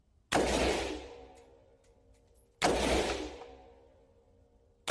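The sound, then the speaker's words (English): An AR-15 rifle fires single shots, two sharp cracks spaced a couple of seconds apart, each trailing off into a long decaying tail, with a third shot just beginning as the sound cuts off. “Now, those are single shots. If I wanted to fire this on full semi-automatic, all I do is keep firing.”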